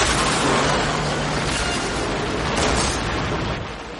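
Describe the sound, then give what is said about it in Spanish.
An armored truck overturning and crashing into several cars at a dealership during a film heist scene, a loud, dense roar of metal impact that holds steady, then eases slightly at the end. “El conductor repara en el camión, que les embiste. El blindado vuelca golpeando a varios vehículos de un concesionario.”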